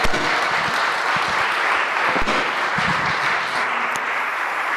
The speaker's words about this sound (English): can we give him a big hand as we welcome him to teach this morning?